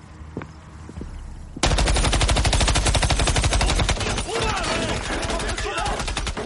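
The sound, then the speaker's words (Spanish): Gunfire from an AR-15 rifle aimed at off-road vehicles on a roadway: after a brief quiet stretch, loud, rapid automatic fire erupts and continues as a sustained, dense string of sharp cracks to the end. “saca un subfusil AR-15. Camina por la calzada hacia los todoterreno. Los apunta.”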